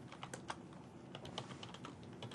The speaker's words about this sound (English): Now, I'm going to simply type your email address, right?